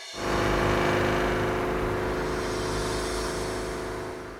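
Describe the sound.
Car engine drone on a drive to Lake Fuschel, a continuous steady hum that swells in over the first half second and then holds evenly, easing slightly toward the end.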